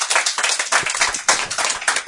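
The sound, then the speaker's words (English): An audience clapping: a steady, dense patter of many hands applauding together, sharp and even throughout without any voices. “Clap if you think that one is the fiction.”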